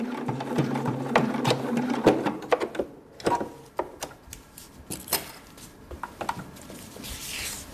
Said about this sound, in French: Sa machine à coudre trône en bonne place dans son salon de coiffure de Peuzeux, dans le canton de Neuchâtel.